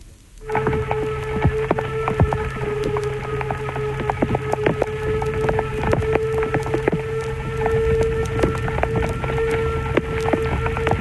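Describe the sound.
Pouring rain patters densely around a Harz narrow-gauge locomotive, number 99 7238, hauling a passenger train between Elend and Sorge stations. A steady mechanical hum runs under the crackling drops for the whole stretch.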